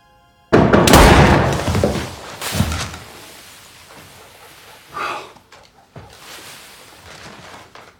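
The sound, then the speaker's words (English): A generator blowing out in a film scene from A Man Called Otto: a sudden loud, rumbling crash that swells, slowly dies away, and is followed by a few softer thuds and rustles. “What was that noise? The generator blew and the power is out.”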